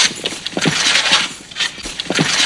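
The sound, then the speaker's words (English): Swords being drawn, heard as a series of bright metallic scrapes and ringing clinks. The bursts repeat in quick succession at roughly even loudness, with no voices. “What should we do? Draw your swords.”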